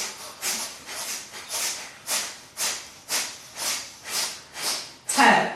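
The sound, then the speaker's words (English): Bellows breath during a yoga practice: rapid, forceful exhales through the nose, each a breathy hiss. They come in a steady rhythm of about two per second, and the last one is the loudest. “If you know bellows breath, you can do that now. So a rapid pulling out inhale at the belly button into exhale, and then an automatic inhale.”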